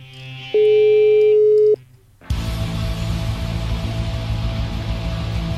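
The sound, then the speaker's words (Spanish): A telephone call tone while redialing: one steady, loud beep lasting just over a second, then a brief near-silent gap, then continuous line hiss and static. “Nada, se queda la llamada. Vamos a intentarlo de nuevo, a ver si podemos hablar con Willy.”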